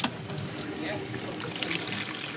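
Warm water runs into a plastic basin during a home health aide training class in New York, making a faint, steady trickle and splash with small irregular spatters.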